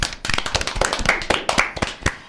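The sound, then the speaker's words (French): Hands clapping in applause for a young reporter's studio recording and editing work: a brisk, dense patter of claps that continues steadily through the whole moment. “On peut l'applaudir.”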